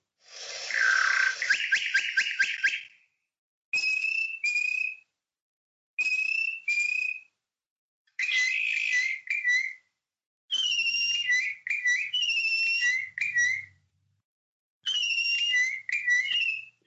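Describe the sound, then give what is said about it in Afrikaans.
Bokmakierie bushshrike song as two males duet: loud, clear whistled phrases come in six bursts separated by short silences, mixing ringing repeated notes with rapid clicking trills. “Dit bring ons nou by die bokmakkerie. En hier is sy lieflike roep.”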